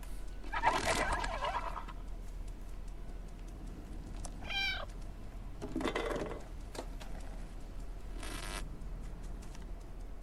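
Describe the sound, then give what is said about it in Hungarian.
Faint cat meows played as a button-triggered sound effect, a few short calls spaced apart over a low background hum. “Úgyhogy ne felejtsük el, hogy külön gomnyomás van a nyávogásra.”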